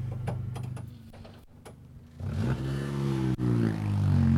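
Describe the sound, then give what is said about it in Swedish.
A Peugeot rally car, originally a Group 1 car and tuned up with a Sadev gearbox, accelerates. Early clattering gives way to a loud, continuous engine roar whose pitch climbs steadily through the second half. “Håkan Ståhl i sin Peugeot. Jag gillar den här bilen. Eh, grupp 1 från början som man har hottat upp lite med Sadev-låda och, och lite så.”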